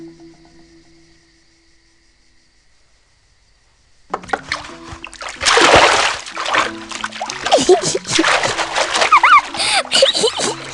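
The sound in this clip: After several seconds of near silence, water splashes as the boy Kirikou washes himself in an animated film scene. A voice speaks over the splashing.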